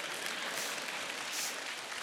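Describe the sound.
An audience claps together during a talk about faith in God, producing a continuous dense wash of clapping that stays fairly faint and even from start to finish, with no speech over it.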